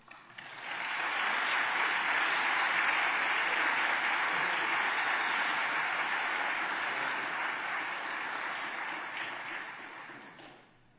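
Applause from a church audience welcoming a visiting pastor: dense, steady clapping that swells quickly, holds evenly for about ten seconds, then tapers off, with no voices over it.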